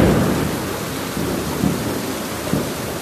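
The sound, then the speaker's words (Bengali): Dense, steady rain pours without a break while low thunder rumbles underneath, swelling briefly a few times; no voices. “বৃষ্টির শব্দটা অনেকেই উপভোগ করেন, তাই আর কি শোনাচ্ছি যাদের একটু ঘুমের সমস্যা।”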